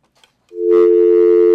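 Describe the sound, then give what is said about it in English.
A telephone signals an incoming call on a call-in phone line with a steady, sustained electronic tone. It begins after a moment of near silence and holds level and fairly loud to the end. “Here on the Barter Box this morning, we've also got another phone call here. Let's get to the phones this morning.”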